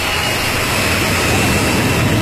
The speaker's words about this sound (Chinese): 国产大飞机一飞冲天。